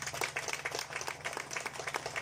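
Audience applause for a company's commercial and distribution team at a presentation, a quiet, fairly even patter of many claps.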